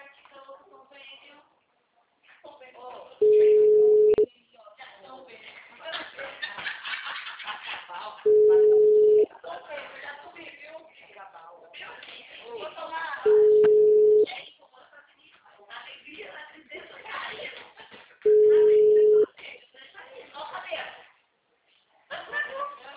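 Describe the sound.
Telephone tones while calling a number: four long, steady beeps spaced evenly several seconds apart, with a person talking in the gaps between them.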